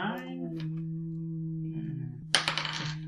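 Dice clatter onto a hard surface during a tabletop role-playing game session in a quick burst of rattling clicks near the end. Before that comes a drawn-out voiced tone.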